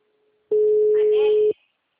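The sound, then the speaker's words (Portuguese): A telephone tone sounds on a WhatsApp call that would not go through, the line reported busy: a single steady mid-pitched beep lasting about a second, starting and stopping abruptly. “Eu acho que sua internet não tá boa, porque eu te liguei no WhatsApp, não chamou. O número está ocupado.”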